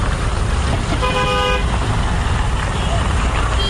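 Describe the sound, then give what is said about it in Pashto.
Traffic at a busy bus and car station in Kandahar, where small and large vehicles come and go on the Kabul route: a steady, dense rumble of engines, a short horn toot early on, and voices mixed in. “دا په کندهار کې د کابل موټرونو اډه د چیل لدې ځای هر ورځ زرګونه مسافر په کوچنی او غټو موټرونو کې کابل ته تګ راتګ کوي.”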